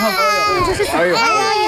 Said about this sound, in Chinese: 这是 怎么了？ 一直哭啊！ 您什么哄也不行。